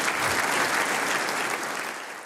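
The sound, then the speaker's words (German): Applause from an audience at a live music performance, a dense, steady clatter of many hands that fills the whole stretch and tapers slightly toward the end. “Jawohl, Applaus.”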